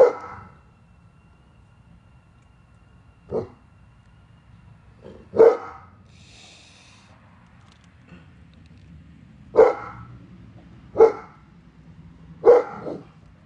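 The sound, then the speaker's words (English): A dog barks in a handful of short, sharp single barks spaced several seconds apart, each standing out clearly over a low, steady hum with no talk. “Not the dog. Barking again. Excuse the dog.”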